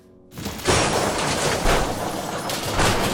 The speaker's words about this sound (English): Good God, is that a tank?